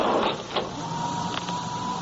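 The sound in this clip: An elevator in a state building running upward hums steadily with a thin mechanical whine through a short stretch.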